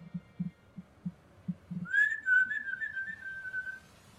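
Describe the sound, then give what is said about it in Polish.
A sustained whistle holds a steady, fairly high tone for about two seconds. Before it, low throbbing pulses beat several times alone, like a heartbeat, and they continue faintly beneath the whistle. “Nadchodzi to, to gwizdanie.”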